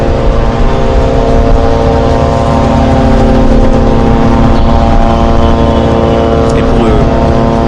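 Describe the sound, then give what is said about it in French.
Israeli drones buzz almost continuously overhead in Lebanon, a loud, steady, droning hum with several sustained tonal layers that barely changes throughout. “Écoutez ce bruit, ce n'est pas votre radio qui bourdonne, n'essayez pas de régler quoi que ce soit, c'est le bruit des drones israéliens. On les entend quasiment en continuité au-dessus de nos têtes”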